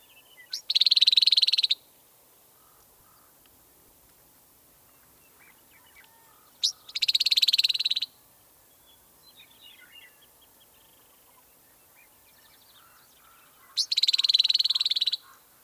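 Harsh, buzzy rattle calls of an icterid, a blackbird-family bird, come three times, each a dry burst lasting about a second, separated by long quiet gaps with only faint scattered bird notes between them.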